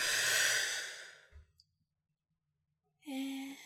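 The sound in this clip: A long, breathy exhale through the mouth during a guided breathing exercise, a soft rushing sigh that fades into silence before a voice begins to speak.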